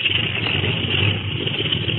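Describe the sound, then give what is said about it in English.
An aircraft engine warms up, a rough, steady droning hum that holds loud and unbroken for about two seconds with no voices over it. “Well, they're warming up the motor.”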